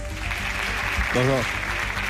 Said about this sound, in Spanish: Os pido un aplauso para él.